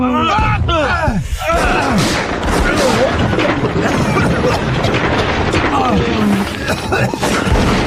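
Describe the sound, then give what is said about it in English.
Grenade explosions and gunfire fill a 1916 World War I battle in a tunnel in France, a loud, dense, continuous barrage of booms and cracks with shouting voices mixed in. “Throw your grenades!”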